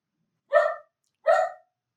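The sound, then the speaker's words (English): A dog barks during a sudden thunderstorm. Two sharp, separate barks are heard with silence around them. “I can hear the dog barking.”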